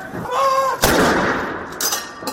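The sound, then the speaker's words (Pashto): A cannon salute fired by British armed forces at a royal military funeral at Windsor Castle: a heavy, sharp boom that fades into a long rumbling decay, loud and with no voices over it. “او د درناوي لپاره د توپونو ډزې وشوې”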